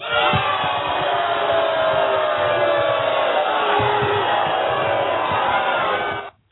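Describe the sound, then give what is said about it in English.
Studio audience voicing disapproval with a sustained wash of groans and bellowing crowd noise that stays loud and even, then cuts off abruptly at the end. “The live studio audience did not like that one bit.”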